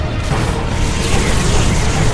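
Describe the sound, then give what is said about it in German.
Gunships launch and leave a starship's hangar in a loud, dense roar. The engine rumble is a continuous wash of noise with faint booming undertones throughout. “Kanonenboote bereit machen. Wir sind soweit, Admiral. Die Kanonenboote verlassen den Hangar der Resolute.”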